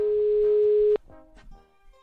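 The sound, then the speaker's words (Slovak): A telephone ringing tone sounds while a call is dialed: one steady, loud tone holds for about a second and cuts off sharply, followed by quieter, scattered sounds. “Tak idem ho vytočiť a povedal som si, že nie je lepší moment, ako to urobiť priamo vo vysielaní”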